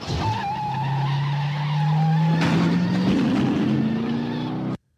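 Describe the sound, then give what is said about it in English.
A Dodge car engine drones with a slowly climbing pitch. Midway, a broad hissing screech like skidding tyres joins it, then the sound cuts off abruptly. “Come on, let's fire that Dodge up.”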